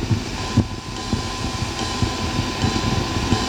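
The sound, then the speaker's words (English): Programmed ride cymbal plays a steady, shimmering wash with regular light ticks pulsing through it, in a jazz-fusion track. “That's the ride cymbal. And that's the thing that creates the wash over the music.”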